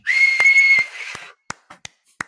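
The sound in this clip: A short, steady whistled note held for under a second over a faint noisy backdrop, followed by a few sharp, separate clicks.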